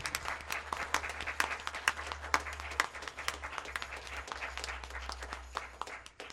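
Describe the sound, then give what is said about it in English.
A church audience applauds visitors at a morning service, with dense, steady clapping that stays even for several seconds before tapering off at the end. “And all you New Life folks, let's give them a hand for coming and joining us.”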